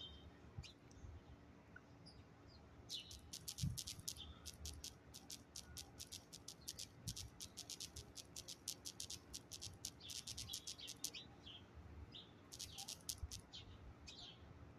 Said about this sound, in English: I'm gonna give y'all a little bit of ASMR experience and listen to the birds chirp real quick while I answer this.